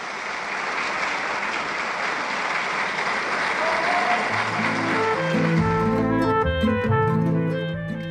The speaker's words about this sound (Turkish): 2008 yılında aramızdan ayrılan Leyla Gencer'i, La Diva Turca'yı biz de alkışlarla uğurlamak istedik radyomuzdan kıymetli dinleyenlerimiz.